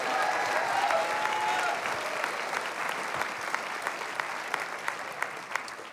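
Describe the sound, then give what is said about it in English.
Applause from a church audience in Northport, Florida: a broad, sustained wash of many clapping hands. It starts loud, eases slightly and holds steady, with sharper individual claps standing out near the end. “Come on, if you receive that, clap those hands one more time under the Most High God.”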